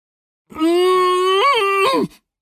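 A muffled moan forced through clenched teeth: one loud, sustained, closed-mouth vocal hum of about a second and a half. It holds a steady pitch, bends briefly upward midway, then cuts off.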